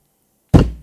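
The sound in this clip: A door is shut with a single heavy thunk after silence: a sharp low impact that dies away quickly, with nothing else heard.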